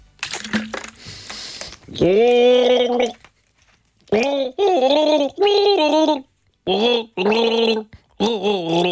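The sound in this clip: A person gargles a pop song's tune, producing a bubbling, voiced melody in several sustained phrases with short pauses between them.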